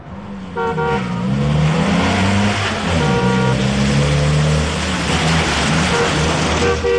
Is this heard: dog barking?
no